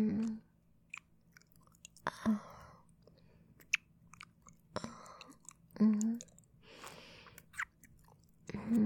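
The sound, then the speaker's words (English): Slow, gentle kissing: soft wet mouth smacks and lip sounds come at irregular intervals, quiet and intimate, with breathy pauses between them. “How does that feel? Do you like slow, gentle kisses?”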